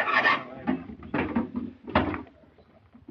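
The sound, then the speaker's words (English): A wooden crate holding an organ is pried open: a few dull wooden knocks, creaks and scrapes come in irregular bursts, fairly faint, with no talk. “tell him to take it easy opening that crate. I don't want anything to happen to that organ.”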